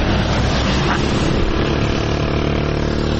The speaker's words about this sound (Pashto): دا په ترینکوټ ښار کې د اورزګان او کندهار د لیلارې د موټرو تمځای دی.